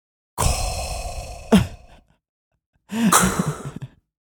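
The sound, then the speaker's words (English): A sci-fi villain's mechanical respirator breathing effect: two long, hissing, resonant breaths with a silent gap between them, each lasting over a second, loud and heard alone. “it's Darth Vader! It's Darth Vader breathing!”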